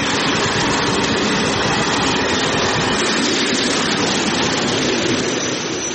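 A train rolls along rails with a loud, continuous rumble and rattle. The dense, steady noise stays constant and eases only slightly at the very end.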